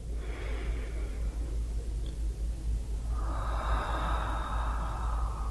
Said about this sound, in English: Another breath in. Good. Breathe in.